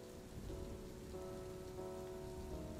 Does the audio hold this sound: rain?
yes

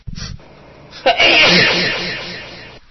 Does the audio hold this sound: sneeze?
yes

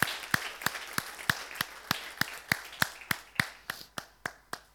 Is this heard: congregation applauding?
yes

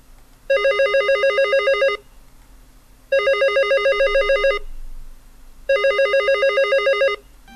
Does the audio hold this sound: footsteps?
no

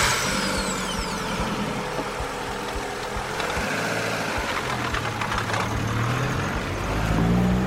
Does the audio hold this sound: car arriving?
yes

